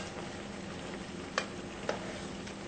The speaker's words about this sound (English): Our sauce is boiling, which is just what we want.